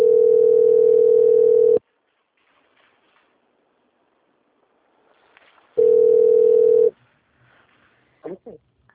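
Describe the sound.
Telephone line tones play while a bank quality-control call is being transferred: two long, loud, steady tones of equal pitch, separated by a stretch of near silence. A few brief, faint sounds follow at the end.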